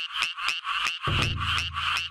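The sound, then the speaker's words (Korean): A tree frog sings its croaking call as a run of rapid, regular rasping pulses, which then turn into a steadier buzzing tone. “여기 청개구리 보면은 예. 쟤 앉아서 노래를 하죠.”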